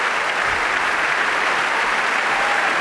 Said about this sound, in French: Ettore Pagano qui est revenu sur scène pour saluer le public qui l'acclame chaleureusement. Tout le monde est debout, y compris le couple royal.